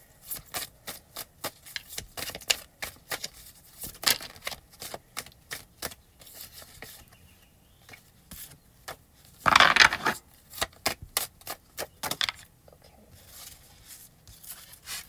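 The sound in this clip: Tarot cards are shuffled and drawn in a long run of quick, crisp flicks and snaps, uneven in rhythm. A louder, denser riffling burst comes partway through.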